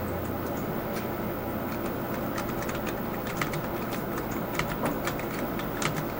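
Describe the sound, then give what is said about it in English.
Typing on a computer keyboard: many rapid, faint keystrokes clatter steadily over a constant background hiss. “So now we're going to attempt to watch me type this in.”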